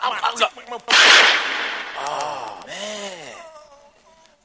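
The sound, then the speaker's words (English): A gunshot sound effect in a comedy skit: one sharp, loud burst with a decaying noisy tail, followed by a voice speaking. “Oh, man, I shot homeboy. I didn't mean to do that.”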